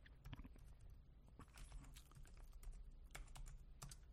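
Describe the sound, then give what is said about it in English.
Fingers tap quickly on a computer keyboard, giving many irregular, crisp keystroke clicks in uneven bursts, quiet and with no talk over them. “it's very hard to talk and type at the same time”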